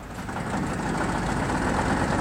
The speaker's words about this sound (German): Du musst den Motor noch mal anlassen